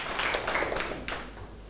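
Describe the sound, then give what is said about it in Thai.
Students applaud a classmate in a classroom after her essay is praised: a brief burst of mixed hand claps, fairly soft, thinning out toward the end. “ปรบมือให้เพื่อนลูกเข้าที่ครับ”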